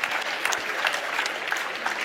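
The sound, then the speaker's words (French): A church audience breaks into applause, a brisk, dense patter of many hands clapping at once that stays steady and fairly loud throughout. “Est-ce qu'on peut les applaudir? Il y en a plusieurs qui sont là, qui nous ont rejoints.”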